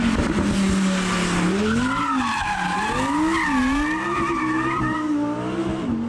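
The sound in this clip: Tires on an Audi R8 V10 squeal hard as it burns rubber. A loud, sustained shriek wavers up and down in pitch over a steady engine roar, unbroken for the whole stretch.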